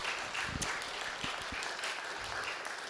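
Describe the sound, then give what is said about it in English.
An audience applauds a speaker at a community peace talk, a dense, even patter of many hands clapping that holds at a steady level for the whole stretch without rising or fading. “So thank you so much. Can we give Dave another hand?”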